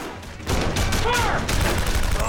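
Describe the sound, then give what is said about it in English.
Gunfire erupts in a firefight as men open fire from a building window, a dense, sustained roar of shots starting after a brief quieter moment and running on to the end. “Kusey and Uday open fire.”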